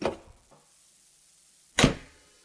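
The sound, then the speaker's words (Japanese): A room door is flung open violently with one loud, abrupt bang near the end, after fainter knocks and a stretch of near silence. “その時、部屋の戸が激しく開いた。”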